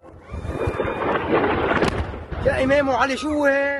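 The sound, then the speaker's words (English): An airstrike explodes in the eastern Bekaa Valley of Lebanon as a deep, rolling boom that rumbles for about two seconds before a voice begins talking over its fading tail. “Israel says its offensive against Hezbollah will not stop. And this is proof of it. A massive airstrike on the eastern Bekaa Valley, one of 30 in just 1 hour.”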